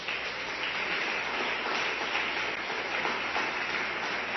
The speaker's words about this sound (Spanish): Den un aplauso fuerte al Rey.